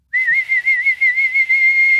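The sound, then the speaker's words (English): A man whistles one long, sustained high note with a gentle wavering pulse. It is loud and clear, with no voices. “He whistled again.”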